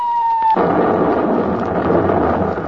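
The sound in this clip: A bomb explosion sound effect: a brief steady tone cuts off abruptly into a loud, rumbling blast that roars and crackles for about two seconds before easing slightly.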